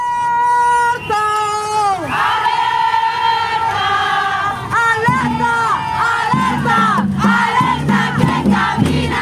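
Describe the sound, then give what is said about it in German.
Protest crowd chanting at a women's strike in Oaxaca, Mexico, on International Women's Day. Massed voices shout sustained rhythmic chants and high calls, loud and continuous throughout. “Das sind Stimmen vom Frauenstreik in Oaxaca in Mexiko vom letzten 8. März, also dem Internationalen Frauenkampftag.”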